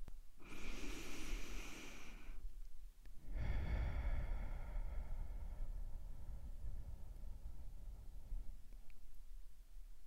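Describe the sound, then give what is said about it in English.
Deep meditation breathing: a slow inhale through the nose, a brief pause, then a much longer exhale out through the mouth. The airy, breathy hiss is steady and fairly loud, and no one speaks. “let's take a deep breath in through our nose and a deep breath out through our”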